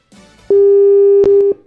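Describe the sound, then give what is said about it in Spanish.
Telephone ringback tone heard while dialling someone: one steady, clear, fairly loud tone lasting about a second, framed by soft clicks on the line, with no talk over it. “A ver, vamos a llamar al jefe. 9, 30, 25. Ahí lo estoy llamando.”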